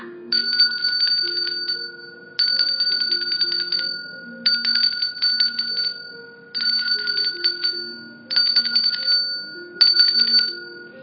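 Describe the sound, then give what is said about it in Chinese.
An alarm clock bell rings to wake a little turtle sleeping in a children's story: a rapid, high metallic trill comes in six bursts separated by short pauses, over a soft melody. “有一天呢，小乌龟正在睡觉。钟响了，”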